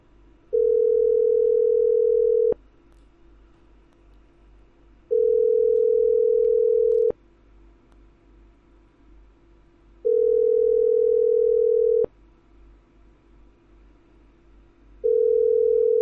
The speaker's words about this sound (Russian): Я ему перезвоню,